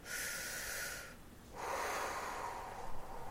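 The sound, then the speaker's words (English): Deep, slow breathing during a guided relaxation with eyes closed: two long, soft, airy rushes of breath separated by a brief pause, heard alone without speech. “Close your eyes. Always take 3 deep breaths.”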